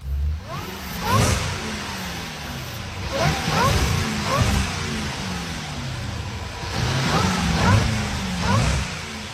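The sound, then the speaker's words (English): A car engine revs on a car dealership's sales floor, a low, throaty roar that surges and falls back several times over steady background noise. “So, there was a car that you heard. I recorded a little earlier on the floor of We Buy Cars Lansdowne.”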